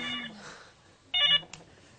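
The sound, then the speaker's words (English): A mobile phone rings with a short burst of bright, high electronic ringtone notes, fairly faint, with a brief chirp after it. “Should we turn this off? I don't even know where it is. Is that that's my phone. I'm wanted.”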